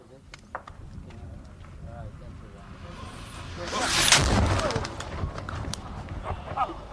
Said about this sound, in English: The Taliban fired a mortar shell that landed uh, very close to me, maybe no more than 20 feet from me. It exploded